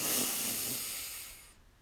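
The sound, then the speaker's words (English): A long, deep breath is drawn in by extending the belly, heard as a steady, airy hiss that gradually thins and stops near the end. “We'll breathe in by extending our belly, doing a long extension, and then we'll hold slightly and then release with a loud, audible sigh. And we'll do that three times together. So let's breathe in”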